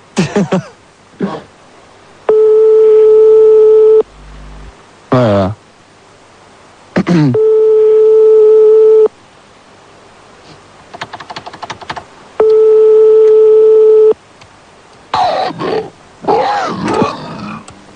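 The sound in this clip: Ringback tone of an outgoing phone call: three long, steady beeps at even intervals, each lasting nearly two seconds, with short bursts of voice, coughs and clattering noises between them.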